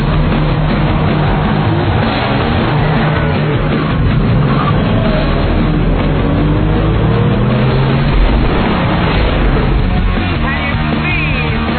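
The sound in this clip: A car engine runs and pulls away with a loud, steady low rumble and broad road noise. The sound stays at an even level throughout, with no talk over it.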